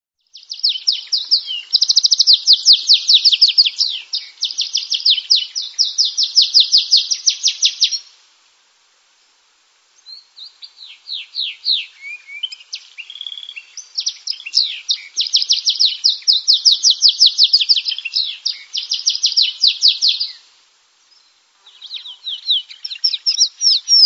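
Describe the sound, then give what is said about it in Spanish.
A wild canary sings long runs of high, rapid trills and chirps, loud and steady, broken by brief pauses into a few extended phrases, with no other sounds. “vamos a poner el audio del canario silvestre”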